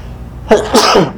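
A single loud human sneeze, a brief sharp onset breaking into a longer forceful, breathy burst, heard alone against a quiet background.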